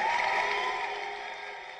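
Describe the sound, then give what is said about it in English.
Cheering erupts from a television in a restaurant in Kisumu, western Kenya, as an election result is announced. The crowd noise is a dense, sustained roar that fades slowly over about two seconds, with no distinct voices. “The cheer in this restaurant in Kisumu came from the television.”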